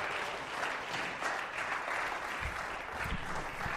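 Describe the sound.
Warm applause from an evening audience welcoming speakers onto a stage: continuous, even clapping at a moderate level with no break.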